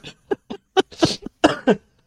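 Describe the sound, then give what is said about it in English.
A coughing fit after laughing: many short, harsh bursts in an uneven rhythm, with one longer rasping cough in the middle, loud and alone without talk. “every time I laugh, I start coughing, so I've tried not to laugh.”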